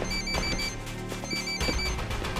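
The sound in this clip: An electronic telephone rings in two short, bright bursts separated by a brief pause, clearly audible over a steady low background.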